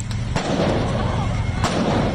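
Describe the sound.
Armed officers fire gunshots at a man on the ground, a few sharp, brief cracks cutting through a steady, noisy background.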